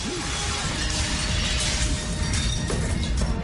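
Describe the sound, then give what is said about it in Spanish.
Glass shattering and crashing as an axe breaks a barred window in a burning building, a harsh, dense wash of noise sustained across the whole clip. “Coge el hacha y rompe una ventana enrejada.”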